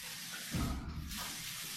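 Water tap running in a house, a faint, steady hiss of flowing water with a brief louder gush in the middle before it settles back to a soft stream.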